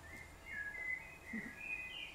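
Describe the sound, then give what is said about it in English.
Birds singing at dawn: a few thin, high whistled phrases drift faintly over a soft, steady background hiss. “He has a song in His heart, just like these birds. Okay? They sing of God's praise every morning.”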